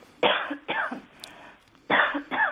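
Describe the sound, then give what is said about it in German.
A coughing fit of four harsh, throaty coughs arrives in two pairs separated by a short pause. Each cough is loud and brief and stands alone against faint background noise. “Entschuldigung, ich habe einen Hustenreiz”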